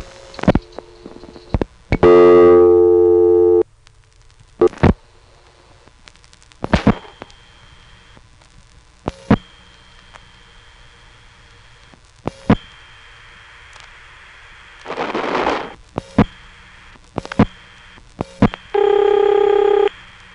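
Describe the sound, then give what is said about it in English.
Telephone ringing tone on an old trunk line, from an old tape recording: two buzzy ring bursts far apart, separated by sharp line clicks and a short hissy noise burst over faint background hiss. “Here's a ringing number in 867 Hinton, which also goes out on a Mystery Type 3 trunk.”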